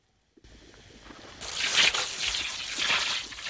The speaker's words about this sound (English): He sprays the face with a water jet hanging nearby.